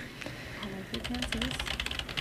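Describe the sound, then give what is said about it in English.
Typing on a computer keyboard: many quick, light key clicks in a brisk, irregular patter, fairly faint, starting after a short quieter lead-in. “By pretending to type.”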